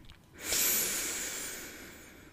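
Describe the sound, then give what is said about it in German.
Deep, slow breathing during a guided German-language movement and breathing exercise: a soft, airy hiss that swells suddenly, then tapers gently over the next two seconds, with no voices. “Atme hier tief ein und tief aus. Tief ein”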